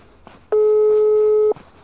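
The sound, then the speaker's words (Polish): A single steady telephone signal tone sounds when a call to a local official goes unanswered, holding one even pitch for about a second before cutting off. “Dzwonimy do pani Katarzyny Erdman, bo do pani burmistrz.”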